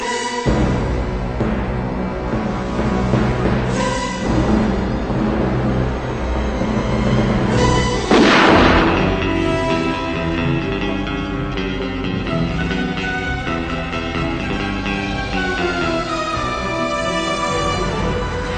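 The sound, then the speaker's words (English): Orchestral gun barrel opening music from the James Bond film Licence to Kill plays loud and dense, with sustained brass-heavy chords and a sharp, bright swell near the middle before the music settles into held tones. “The tone is very much set by the gun barrel. Yeah. Here is the gun barrel music to License to Kill.”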